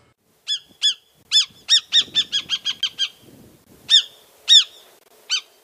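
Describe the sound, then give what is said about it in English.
Alarm calls of a Northern Harrier, a slim, long-tailed marsh hawk. The bird gives many sharp, high, squealing notes in a quick, even run, then a few spaced calls after a short pause. “That was the alarm call of the Northern Harrier, formerly known as a marsh hawk.”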